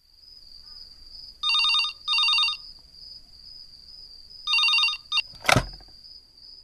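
A telephone ringing at home in the evening: two long double rings, then a clipped ring, ending in a sharp clunk, over a steady high background tone. No voices.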